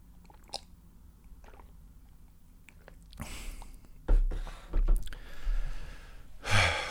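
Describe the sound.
Tea being sipped and drunk quietly: a few soft slurping sips with breaths and small mouth sounds, separated by quiet pauses.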